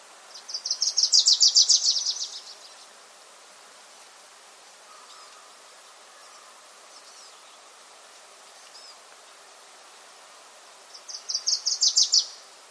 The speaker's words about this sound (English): Once again, that was the Wilson's Warbler singing, that one recorded at Thimbleberry Lake.